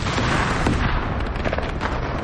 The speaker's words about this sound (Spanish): Tira petardos.